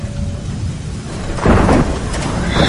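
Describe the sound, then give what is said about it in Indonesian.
Thunder rumbles through steady heavy rain in an audio drama effect, with the downpour hissing throughout and a louder roll of thunder swelling about halfway through. “Hujan itu turun sangat deras. Beberapa kali petir pun menggelegar di udara,”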